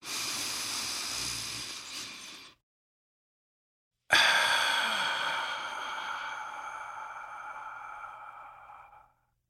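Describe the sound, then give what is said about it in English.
A deep breath drawn in and let out: a soft, breathy rush lasting a couple of seconds, a short silence, then a longer, stronger exhale that slowly fades away, with no talking. “let's take a deep breath”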